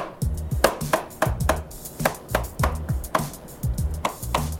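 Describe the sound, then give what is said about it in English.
Food being chopped with a knife: a quick, steady run of many sharp, even knocks with no talking over them. “So now you're gonna chop a little bit.”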